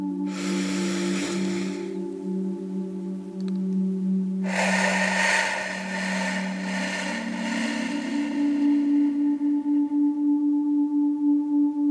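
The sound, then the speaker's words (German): Deep, slow breathing in and out during a guided relaxation exercise. A long, airy, rushing breath sound shifts in tone about midway and continues without a break over a steady low hum. “lass uns dreimal einatmen und ausatmen.”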